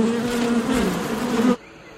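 Bees buzz at a honey hive, a dense, steady droning hum with a low tonal core. It holds fairly loud and even, then cuts off abruptly near the end.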